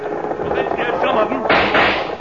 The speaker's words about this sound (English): Guess I'll have to shoot to scare off the lead cows.